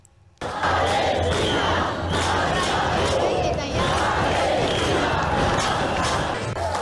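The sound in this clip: A protest crowd chants against genocide at the Cinema al Día film event. After a brief near-silence, loud massed voices burst in suddenly and carry on in a steady, forceful chant to the end.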